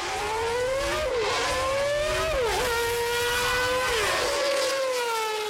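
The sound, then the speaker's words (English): Racing car engine at full throttle on a main straight, a loud sustained high-pitched whine that climbs steadily, with a few brief dips in pitch at gear changes before it climbs again. “Now, let's once again listen to Senna as he returns to us on the main straight at full throttle, just as he did that day.”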